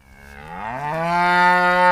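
A cow lets out a single drawn-out moo lasting about two seconds. Its pitch rises at the start, then holds steady and grows louder toward the end, with nothing else heard.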